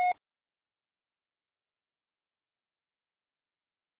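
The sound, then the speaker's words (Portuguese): A voicemail tone signals the start of a message: one short, clear beep at the very start, followed by silence. “estará sujeita à cobrança após o sinal.”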